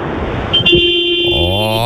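A cargo truck's horn honks in long, sustained steady tones that hold to the end, with a deeper, richer horn tone joining near the close over constant road noise.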